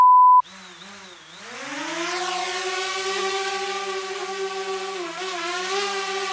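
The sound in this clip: A small buzzing drone gives a sustained harmonic whine that climbs in pitch, then holds a steady droning tone. A short, loud beep comes just before it.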